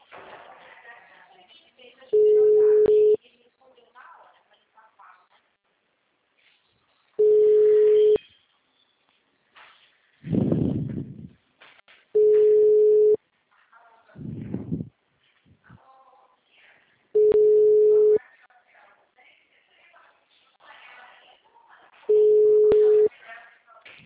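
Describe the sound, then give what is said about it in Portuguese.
A telephone rings out unanswered: five long, steady beeps of equal pitch repeat at regular intervals, with people talking quietly in the gaps between them. “Não tô pensando, tô ligando. Ah. Tá chamando, menina. Não chama, não atende.”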